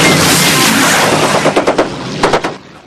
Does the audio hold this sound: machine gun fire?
yes